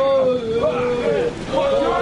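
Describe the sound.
Storm-at-sea effects from a Turkish radio drama about a sinking boat: a continuous rushing wash of wind and water noise runs under loud, urgent shouting voices throughout.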